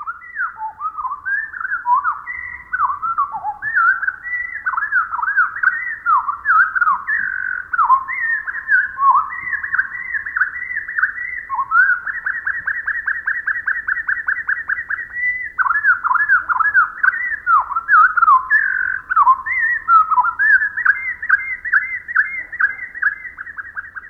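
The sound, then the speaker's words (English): Wren song slowed to quarter speed: a continuous stream of low whistled sweeps, slurred notes and rapid trills, moderately loud and unbroken throughout, with no talking. “naturalist Rosemary Jealous writes, even the most extensive bird song seems so brief to us. Let's listen again, but this time with the song slowed down to 1/4 speed.”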